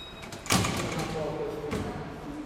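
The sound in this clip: Entrance barrier gate opening, with two distinct mechanical clunks standing out over a steady background rush.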